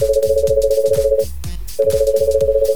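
Ringing tone of an outgoing telephone call in a phone-in game: two warbling mid-pitched bursts separated by a brief pause, with a regular low pulsing running beneath.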